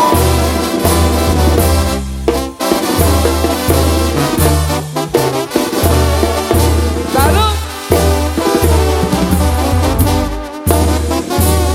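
Loud, energetic regional Mexican band music, driven by a steady pulsing bass line beneath dense layered instruments, playing continuously with a couple of brief dips in the texture.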